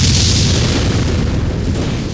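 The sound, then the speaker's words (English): Outdoor explosion producing a deep, loud rumbling boom that stays as a heavy low roar through the whole stretch, with no clear separate blasts. “there was a blinding flash and everyone felt as if they'd been punched. The percussion from the explosion rocked his back and her feet.”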